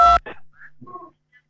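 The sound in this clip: Short electronic telephone tones as a call is connected to a call-in line, heard just after a brief burst of voice: a few faint, mid-pitched beeps spaced apart with quiet gaps between them.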